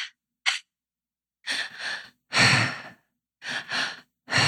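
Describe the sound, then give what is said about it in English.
Breathing exercise with two quick inhales, first into the belly and then up into the chest, followed by a longer breathy exhale out the mouth. The airy cycle repeats alone, with no talking. “So we breathe twice in and one out, and it's into the belly, up into the chest, and out in the mouth.”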